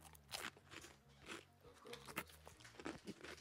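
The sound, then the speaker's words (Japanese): Crunching as thick teriyaki burger flavoured potato snack sticks are bitten and chewed: a few sharp, crackly bites with softer chewing between them, over a low steady background. “おじさんがテリヤキバーガー味のポテト食ってます。”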